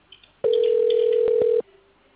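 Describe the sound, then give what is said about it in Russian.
A telephone ringing tone sounds while a call connects: one steady, mid-pitched electronic tone lasting just over a second, heard alone over faint line noise. “Должен дозваниваться. Оставайтесь на линии.”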